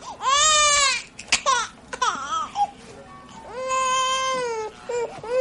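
A newborn baby cries in its mother's arms as she lies in a bed, loud wailing bursts broken by short gasping sobs, ending with a long sustained wail and a brief final cry.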